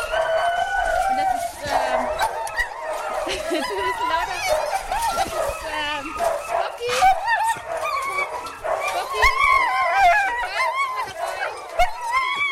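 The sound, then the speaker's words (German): Forty-four huskies greet a person they like with a dense, nonstop chorus of barks, high yips and whimpers, many dogs overlapping throughout at a loud, excited level. “Einfach umwerfend, diese ungestüme Freude, mit der 44 Huskies einen Menschen begrüßen, den sie mögen.”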